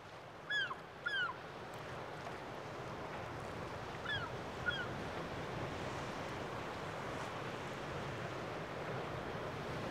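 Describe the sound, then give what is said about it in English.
Choppy sea waves and rising wind on the coast at Dun Laoghaire make a constant, faint rushing wash. A few short bird calls cut through early on and again partway through. “Well, it's getting choppy now, and the wind is coming up.”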